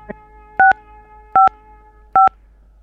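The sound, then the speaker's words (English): Three dial pad key presses on a telephone keypad while navigating a spell-by-name phone directory, each a short, clear two-tone DTMF beep, evenly spaced and loud against a quiet line, after a faint click at the start. “For a spell by name directory, please press the pound key. Using the dial pad button.”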